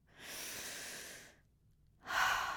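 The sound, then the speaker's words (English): One deep breath: a soft airy inhale lasting about a second, a short pause, then a louder, breathier exhale that begins at the end and is cut off. “just take a deep breath right now. One deep breath.”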